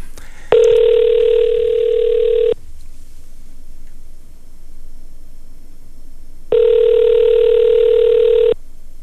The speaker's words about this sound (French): Excusez, ce sera pas long, j'ai un petit appel à faire, OK?